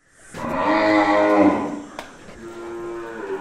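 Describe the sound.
A cow lows at a dairy farm north of Mumbai, one long, loud, deep moo rich in harmonics, trailing off into a quieter, lower bellow.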